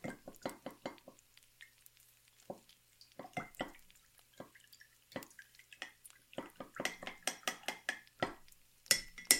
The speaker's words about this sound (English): I know it's loud. That's the best way to make the batter for the pancakes. No, not a spoon, a fork.